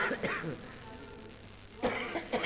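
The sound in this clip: Coughing from a person sick with the flu: a short burst of harsh coughs at the start, a quiet pause, then two more sharp coughs near the end.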